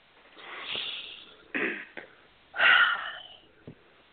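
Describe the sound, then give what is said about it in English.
Slow, deep breathing during a guided breathing exercise: several airy rushes of breath with faint sniffs between them, one louder and slightly wheezy near the end, with no talk. “So that's a good breath, but slow it down. This isn't a commercial radio show where we have to make sure there's no dead air space. Breathe into it.”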